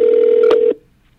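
A telephone ringing for an incoming call: one loud, steady electronic ring tone lasting under a second, with a click partway through, then cut off into near silence.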